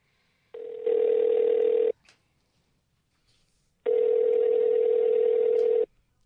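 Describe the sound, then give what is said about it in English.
Telephone call being placed: two long, steady electronic tones with a short silent gap between them, loud and clear with no voices. “Let's dial him up.”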